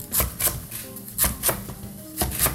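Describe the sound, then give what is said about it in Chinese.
A knife chopping napa cabbage into slices: six crisp, quick strokes falling in three pairs, with short pauses between them and no talking. “白菜， 白菜我们就直接切片就好了。”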